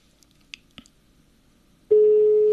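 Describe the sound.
Telephone dialling as a call goes out to a listener: a few faint clicks, then a steady, loud tone starts abruptly and holds at one even pitch.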